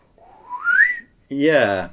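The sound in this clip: Wooden slide whistle as a sound effect in an upbeat, whimsical Christmas pop song: a smooth glide rising in pitch, followed by a short, fuller, wavering tone.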